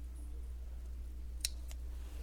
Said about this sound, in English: So I cut the top off.